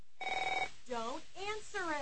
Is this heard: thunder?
no